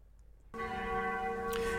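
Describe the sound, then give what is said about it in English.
A mission bell rings out after a brief near-silence, its bright, sustained tone carrying steady overtones that hold evenly to the end without a second strike. “that's the sound of the mission bell”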